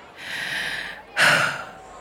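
A deep breath taken while preparing backstage in a dressing room before going on stage: a long, steady breath followed by a shorter, louder rush of air, heard alone without talk.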